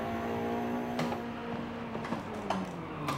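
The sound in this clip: Car engine drone in a racing video game as the motor blows on a slippery turn: a steady, buzzing tone with layered harmonics that dips slightly in pitch toward the end, with a few light clicks and taps over it.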